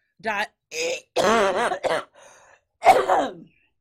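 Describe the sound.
Coughing and throat clearing from someone choking on chewed cashews lodged at the back of the throat: several strained, voiced bursts, some groan-like with wavering pitch, separated by short pauses.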